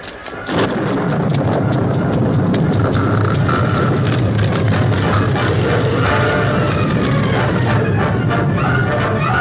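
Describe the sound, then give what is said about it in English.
An overloaded gunpowder blast in a mine caves in a tunnel. A sudden onset swells into a loud, continuous roaring rumble that stays heavy and unbroken to the end. “What did the blast do? Number 3 tunnel's closed. The whole thing's caved in.”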